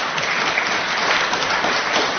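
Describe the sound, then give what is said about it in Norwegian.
Steady audience applause and clapping, dense and continuous for a little over two seconds. No voices rise above it. “Hjertelig takk skal dere ha. Så klapper jeg.”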